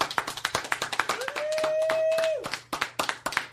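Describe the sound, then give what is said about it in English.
Applause at a radio show: many sharp, uneven hand claps rattle throughout. A sustained whistle-like tone holds for about a second in the middle. “Everyone applaud.”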